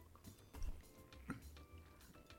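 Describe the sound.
Someone chews pork and thick fried tofu, the quiet soft mastication sounds coming in small moist bites and clicks.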